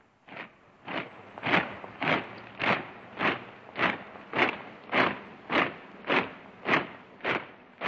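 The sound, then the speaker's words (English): Marching boots of German troops crossing Wenceslas Square in Prague in March 1939, a steady, even tramp of about two heavy footfalls per second, repeated many times alone with no voices. “That's the sound of German troops marching through Prague's Wenceslas Square on the 15th of March 1939.”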